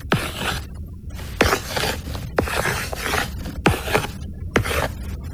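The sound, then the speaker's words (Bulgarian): A pen writes on paper in scratchy, rasping strokes, several quick sweeps in a loose rhythm, each ending in a brief hiss, with nothing else heard. “Сега ще напиша какво долових твоето съзнание”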